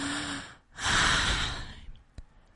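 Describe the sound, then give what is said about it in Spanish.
A young woman gasping and breathing again after choking on a piece of apple. A short breath comes first, then a long, loud, airy rush of breath swells and fades, followed by a faint click. “El médico consiguió sacar el trozo de manzana del cuerpo de Blancanieves y ella pudo al fin respirar.”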